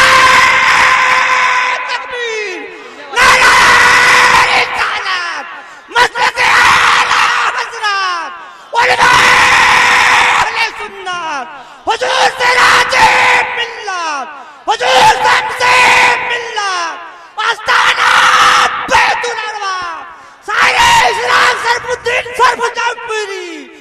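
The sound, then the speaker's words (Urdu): A crowd at a religious rally shouts slogans in eight loud, chanted bursts, each separated by a short pause, with massed voices roaring together. “یہاں میں دیکھ رہا ہوں صرف زیادہ نعرہ ہی لگانے والے ہیں اور جواب دینے والے کم ہیں”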